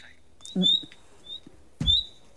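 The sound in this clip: A bird gives a few short, thin, high contact calls at dusk, brief chirps separated by pauses, with soft low thumps underneath.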